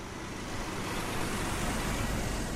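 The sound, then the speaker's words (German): Steady, unbroken roar of concrete mixer trucks driving up in a long line beside a park in Potsdam, a dense road rumble with no distinct passes standing out and no voices. “Am Volkspark in Potsdam fahren in einer langen Reihe Betonmischer um Betonmischer an.”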